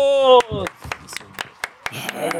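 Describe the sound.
A round of applause for a guest: scattered, sparse handclaps crackle in an uneven rhythm as voices talk and laugh over them.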